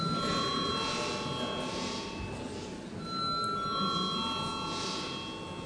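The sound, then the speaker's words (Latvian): Electric bell ringing steadily in the Latvian Saeima parliament chamber before a vote, a sustained metallic tone that holds throughout and shifts pitch slightly partway. “Lūdzu zvanu.”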